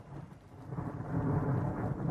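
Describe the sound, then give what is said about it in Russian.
Thunder from an approaching storm, a low, deep rumble that swells and grows louder partway through, with no other sounds. “С востока шла гроза.”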